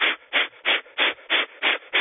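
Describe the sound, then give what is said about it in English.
Breath of fire, quick and sharp forceful exhalations through the nose, about seven airy bursts in a steady, rapid rhythm of roughly three per second, each cut off cleanly with silence between. “The breath of fire is something that we can do to dump stagnant energy that doesn't belong to us and allow ourselves to become more fully embodied in the physical body. So here's what it sounds like.”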